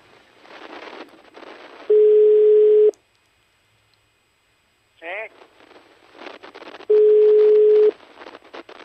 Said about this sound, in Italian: Ma non è il numero giusto, perché evidentemente c'è uno squillo che non è quello di una persona all'estero